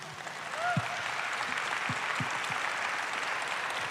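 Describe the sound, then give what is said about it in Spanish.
An audience at a religious service applauds in an even, continuous patter of clapping that lasts the whole span, with a few low thumps early on. “Dale el aplauso.”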